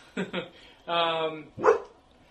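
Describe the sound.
A dog barks inside a house: two quick sharp barks, a longer drawn-out whining cry, then one more loud bark, each standing out against a quiet background.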